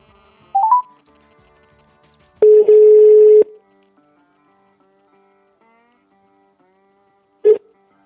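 Telephone handset tones as a call is dialed: a quick cluster of short keypad beeps, then a steady mid-pitched ringing tone of about a second, and much later one brief repeat of that tone, with no talk.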